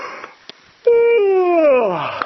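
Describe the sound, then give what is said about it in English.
A person gives a loud, classic vocal yawn: a drawn-out voiced tone whose pitch falls steadily over about a second and a half, preceded by a few soft breaths. “I could do a classic yawn like that, make noise”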